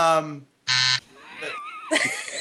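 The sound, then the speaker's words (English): Quiz game buzzer sounding twice in short, harsh, buzzy bursts with a brief gap between them, followed by people talking. “He's got a buzzer”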